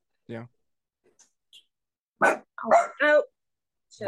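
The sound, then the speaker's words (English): A dog barks in a few short, sharp bursts separated by quiet gaps. Some barks are yelping and slightly whiny in tone. “I have my mom's dog, so they're gonna they just want to hang out. No, they hear things,”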